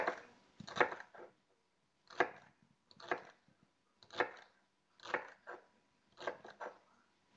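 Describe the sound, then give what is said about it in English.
A knife slices through celery ribs on a cutting board, making crisp, crunchy cuts in an uneven, steady series with brief pauses between short bursts of strokes. “Here we go with the celery ribs. And I'm not going to de-hair them. We're just going to slice these up.”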